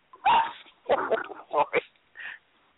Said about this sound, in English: Yes, the dog interrupted. The dog interrupted.